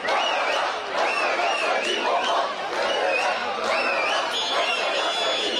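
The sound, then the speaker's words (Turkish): Galatasaray fans chant and cheer in the streets of Brussels, celebrating the championship: a dense, loud crowd of voices shouting in unison without a break, with individual cries rising above the roar. “Belçika'nın başkenti Brüksel'de 7'den 70'e herkes sokaklara döküldü. Tezahüratlar yankılandı, şampiyonluk coşkuyla kutlandı.”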